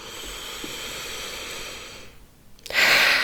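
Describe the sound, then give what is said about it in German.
Deep breathing during a guided breathing exercise: a long, steady airy breath, a short quiet pause, then a louder breath. “Und noch 3 tiefe Atemzüge hier.”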